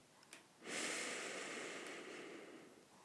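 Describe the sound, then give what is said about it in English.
A deep breath drawn in during a guided group breathing exercise at the close of a session: one long, airy inhale rising sharply and held steadily for over two seconds before easing off, with no talk over it. “I'm just going to take one deep breath before we go, and I will be gone. You ready? Let's breathe in.”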